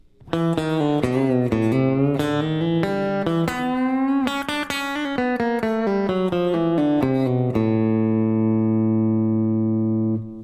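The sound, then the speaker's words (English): A guitar plays a chromatic descent from the third fret down to the open D string, moving from an E to an A. Clear plucked notes step downward in a steady run and end on a long, sustained ringing low note. “And that was the descent from the chromatic descent from the 3rd to the open string in D to get from an E to A. And this is how that sounds, connecting that with the A pattern.”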